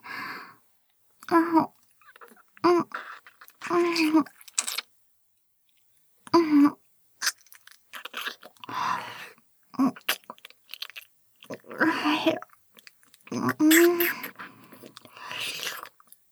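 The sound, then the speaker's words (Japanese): Wet licking and mouth sounds come in many short, soft bursts separated by pauses, with a few brighter smacks among them. “今度は舐めてあげますね。”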